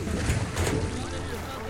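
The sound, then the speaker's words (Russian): Water gushing out of an overturned barrel, a short rushing splash with a couple of quick surges before it thins into a softer wash. “Они перевернули бочку, вылив воду.”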